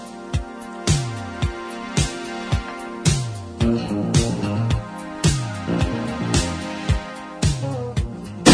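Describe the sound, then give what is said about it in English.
Thirty-seven metal dumbbells clanking together: many loud, sharp clangs, each leaving a ringing metallic tail, struck at uneven intervals one after another. “That's the sound of 37 dumbbells. That's a lot of weight and a lot of wasted space”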